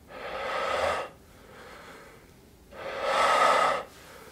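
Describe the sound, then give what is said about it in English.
Two forceful exhalations as hands push in on the belly, each a loud rush of air lasting about a second, separated by a quieter stretch of softer breathing. “use your hands and you can hear the air rush out a bit faster”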